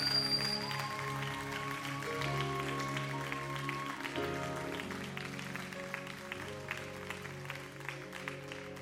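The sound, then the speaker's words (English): Church audience applauding as a pastor comes up to preach, a steady, quiet patter of clapping with soft sustained tones held underneath. “Come on, help me put your hands together. Let's welcome Pastor Andrew Kennedy as he comes and brings the word of the Lord today.”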